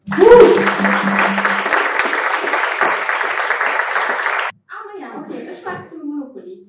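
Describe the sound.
Warm welcoming applause from an evening show audience greeting a performer. It is dense and loud for about four and a half seconds, then stops abruptly and a man starts talking and laughing.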